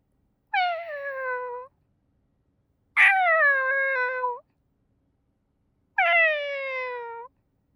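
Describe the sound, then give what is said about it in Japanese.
A human voice imitates a kitten, giving three drawn-out, high meows, each sliding slightly downward in pitch and separated by clear silence. “それじゃあ最初は子猫の声で癒してあげるね。”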